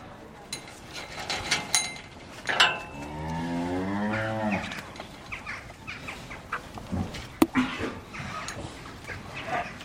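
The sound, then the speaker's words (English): A cow moos on a family farm, one long, low, drawn-out lowing call in the middle, surrounded by scattered faint knocks and clicks of farm activity. “And now we're back on the farm.”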